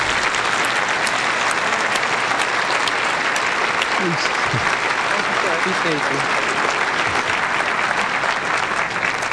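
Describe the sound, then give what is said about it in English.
An audience gives dense, sustained applause to welcome a speaker to the stage. The clapping holds loud and steady from start to finish, with a few voices rising above it. “But now, welcome with a great applause, Suzette Caldwell.”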